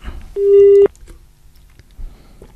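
A single loud telephone beep sounds after a caller's line disconnects. It is steady in pitch and lasts about half a second, followed by faint, quiet line noise.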